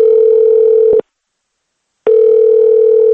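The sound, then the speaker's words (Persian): Ringback tone on a phone call to family in Moscow: two long, steady, mid-pitched tones, each about a second long, separated by a second of silence, loud and clear with no talk. “ما با کمک محمد ایگمزاد با دریافت یک شماره تلفنی به خانواده در مسکو زنگ زدیم و نوروز را از نام رادیوی آزادی تبریک گفتیم.”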